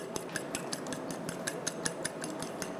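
Eggs are being beaten with a tablespoon of seasoning in a bowl, heard as many quick, evenly spaced light clicks of a utensil striking the bowl, faint and steady throughout.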